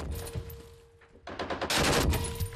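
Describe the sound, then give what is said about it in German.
A volley of gunfire: scattered shots at the start, a brief lull, then a dense, loud rattle of many rapid shots fired in quick succession to the end. No voices are heard. “Weiter schießen. Okay, gut gemacht. Noch eine Salve, dann ist gut.”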